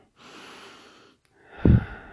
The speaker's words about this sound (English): breathe in and out. Slow your heart rate down. Breathe in.